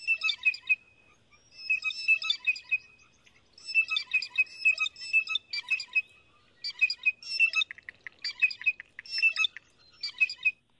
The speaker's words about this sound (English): I hear some click, click, click in there, too. Is that from the blue jay as well? Yeah, yes.